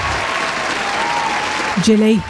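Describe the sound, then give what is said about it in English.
Applause fills the air as a crowd claps in a dense, steady wash of hand claps, loud and sustained, with a voice briefly sounding near the end. “That selection deserved a round of applause.”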